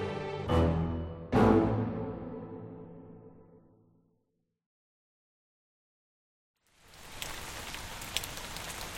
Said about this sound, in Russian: Дождь мелко накрапывал.